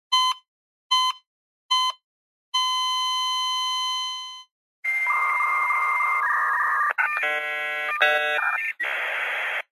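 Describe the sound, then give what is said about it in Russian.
Frantic dial-up modem screeching bursts in after a heart monitor's three short beeps and one long flat tone. The modem's harsh, shifting handshake tones and hiss run loud and unbroken to the end. “В звуки затихающего кардиомонитора ворвалась трескотня бешеного диалап-модема.”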